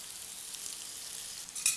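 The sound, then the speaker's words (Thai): Bitter melon stir-frying with garlic in hot oil: a faint, steady sizzle with soft stirring, then a brief louder scrape near the end. “ที่ของกระเทียมพอหอมแล้วนะครับก็จะใส่ตัวมะระที่เราเตรียมไว้เรียบร้อยแล้วนะครับตัวนี้นะครับนะฮะนี่ฮะใส่ลงไปนะครับนะครับผัดนะครับให้มะระสุกก่อนนะครับ”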